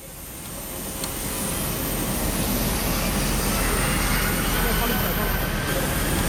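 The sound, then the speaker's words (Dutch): Ambience in the cargo area of Lagos international airport just after a flight has landed: a broad, heavy rumble swells over the first couple of seconds, then holds as a loud, steady roar with a faint high whine above it. “Ik sta op de cargo-afdeling van het internationale vliegveld in Lagos. Het is iets over 4:30 en de vlucht uit Libië is net geland.”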